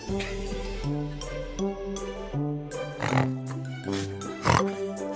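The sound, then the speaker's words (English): A person imitates a warthog with a run of loud, piggy nasal snorts and grunts, several bursts over music underneath. “I'm snorting like a warthog.”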